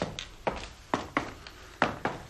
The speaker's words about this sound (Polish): Tę broń włóż, Stanley, do szafki, tam gdzie dowody rzeczowe.